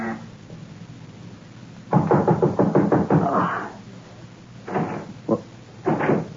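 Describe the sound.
An unlocked door being opened, heard as a burst of rapid rattling clacks, then a few separate, sharper knocks and thuds.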